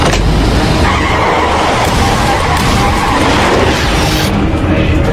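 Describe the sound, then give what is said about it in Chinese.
A vehicle accelerating hard gives a loud, sustained engine roar mixed with a screeching, skidding tire-like noise that holds steady for about five seconds with no pause. “鱼号加速！”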